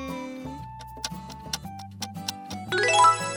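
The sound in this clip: Clock ticks set inside a piece of music that imitates clockwork, with sharp ticks at a fairly steady pace over sustained tones. The texture grows busier and brighter near the end.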